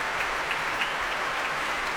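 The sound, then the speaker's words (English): An audience at the Proms applauds a BBC Concert Orchestra performance as the conductor returns for another bow, a faint, steady, even patter of many hands that carries on without a break. “as Keith Lockhart comes on to take yet another bow and the cheering continues”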